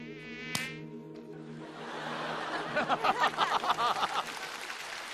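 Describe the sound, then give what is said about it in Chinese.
A mosquito buzzing: a thin, steady whining hum with a brief sharp click early on, followed by a stretch of quick rhythmic pulsing bursts. “蚊子， 出去打蚊子去！”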